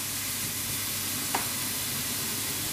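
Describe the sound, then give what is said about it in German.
Bacon burning as it fries in a pan for scrambled eggs, a steady, dense sizzle and hiss that holds at an even level throughout, broken only by a single brief tick near the middle, with no voices. “Unser Speck, Unser Speck brennt gerade.”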